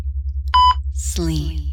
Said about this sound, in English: Each time I push that button, each time you hear the beep